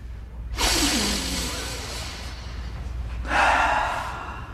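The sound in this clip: Deep breathing: two long, breathy rushes of air, each lasting a second or more, fairly loud and with no talk over them.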